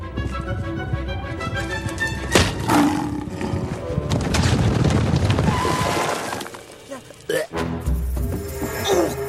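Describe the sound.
A tiger roars in a deep, rough growl that swells and holds for several seconds, set in a busy, loud mix with crashing and breaking effects before and after.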